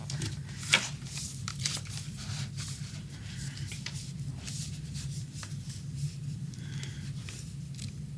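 Pen scratching as an autograph is signed on paper in the dark: many soft, scratchy strokes come in uneven bursts over a low, steady hum.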